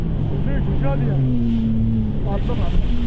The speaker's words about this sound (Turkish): Bir terslik olduğunu fark etti, jet ski'ye atladı, hızla olay yerine gitti.